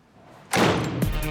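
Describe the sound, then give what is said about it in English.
A door being closed lands as a sudden heavy slam partway through, followed by sustained noise and a second dull knock shortly after. “She smiles weakly and lets him in. Concern is etched on her face as she closes the door.”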